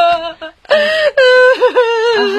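A woman cries aloud, with wavering, voiced sobs and wails that rise and dip in pitch, broken by a brief catch of breath, loud and without clear words.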